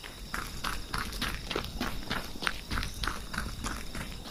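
Running footsteps in a quick, even patter of many light steps, fairly faint, with no voices.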